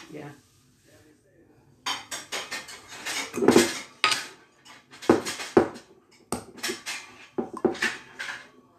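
Measuring spoons and cups clatter and clink together as they are sorted while preparing a Trinidadian black cake, with many sharp metallic and hard rattling bursts after a quiet start.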